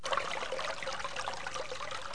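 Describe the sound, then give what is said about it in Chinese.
Rushing water from a small river outside a village, a steady, soft hiss of flowing current that continues without a break for the whole clip. “小马看着哗哗的河水，有些为难了。”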